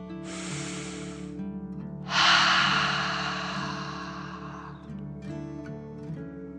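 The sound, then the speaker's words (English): A deep breath drawn in through the nose and let out through the mouth during a guided relaxation exercise: a short airy inhale, a pause, then a longer, louder exhale that slowly fades, over soft sustained music. “Take a deep dragon breath in through your nose and out your mouth.”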